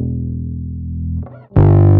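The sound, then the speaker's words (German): Bass note run through the stock Distortion plugin in Logic: a steady, low sustained tone, then a brief dip, then the note returns louder and buzzier, with a bright, gritty layer of high harmonics added on top. “Und wir können ja mal hier reindrehen, ein bisschen Verzerrung.”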